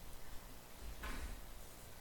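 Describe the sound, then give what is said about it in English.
Double doors being closed give a single brief, muffled thump around the middle, faint against a quiet background and with no voices. “would you do me a favor and close those double doors?”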